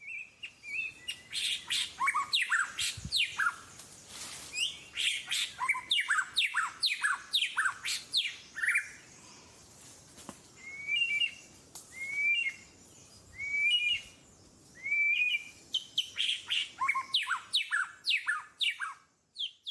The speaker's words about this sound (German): Ich habe die beiden Stimmen mitgebracht und wir hören mal rein. Also zuerst der Weißbürzel-Schama.